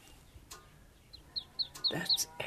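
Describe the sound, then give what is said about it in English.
Fluffy ducklings peep in a run of short, high chirps that come closer together and grow louder toward the end, with faint rustling and handling noise underneath. “They're cute. They're so fluffy. Cute. Oh, look at the colour. Oh, they're beautiful. So we'll keep these little ducklings safe.”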